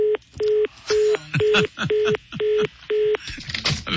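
Touch-tone telephone keypad beeps as a number is dialed: about seven steady, evenly spaced tones, each lasting a fraction of a second, followed by a stretch of scattered noise.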